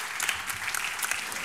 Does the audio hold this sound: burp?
no